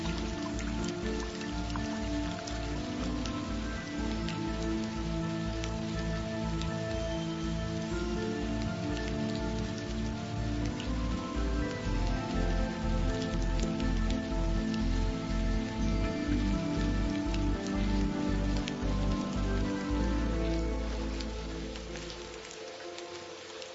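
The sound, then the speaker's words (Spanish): Steady rain: a dense, even hiss of falling drops throughout, over a regular low pulse and sustained musical tones, easing off slightly in the last few seconds. “Pero poco a poco reúne sus fuerzas, toma forma y cae. El verdadero maná del cielo siempre es la lluvia.”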